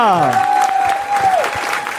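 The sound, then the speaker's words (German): Audience applause at a live show after a performer's reading: steady, dense clapping with a long held whooping cry above it that drops in pitch at its end. “Und ein Riesenapplaus an Ina.”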